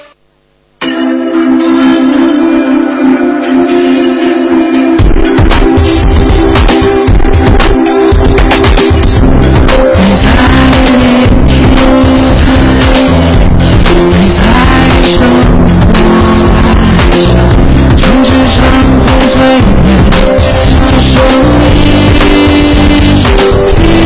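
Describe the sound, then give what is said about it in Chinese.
Go-kart engines racing on a karting track in the basement level of an auto mall, a loud, continuous high-revving roar that starts after a brief near-silent moment and grows denser and harsher from about five seconds on. “城美索尼克卡丁车带你撒把野，你就是下一个车王。”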